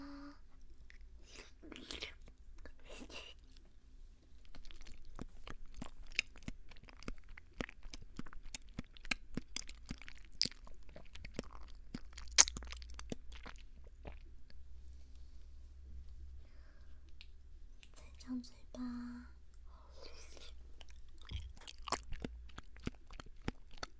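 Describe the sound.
Food being chewed and crunched as someone is fed bite-sized pieces: many soft, crisp crunches and wet chewing clicks in an irregular run, fairly faint throughout.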